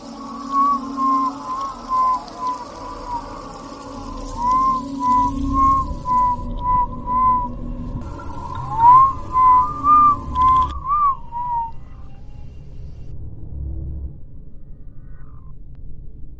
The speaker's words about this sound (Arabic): بعد كده بدأت اسمع صوت حد بيصفر.